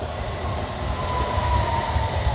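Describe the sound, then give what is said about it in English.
A train rolls past with a continuous low rumble and a thin, steady whine above it. The sound holds at a fairly even level, with a slight swell near the end. “Is this train stopping here as well?”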